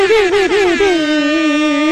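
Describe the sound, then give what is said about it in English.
An air horn sound effect, triggered from a button in a studio, blares for about two seconds as a loud, brassy, harmonic-rich tone whose pitch wavers during the first second and then holds steady. “Let me get my. I gotta get my air horn button together.”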